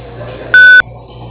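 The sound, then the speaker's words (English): A voicemail beep before recording a message: one loud, steady electronic tone lasting about a quarter second, standing out against a faint background hum. “Sending you to voicemail. Begin speaking at the tone. When you are done, hang up or press pound for more options.”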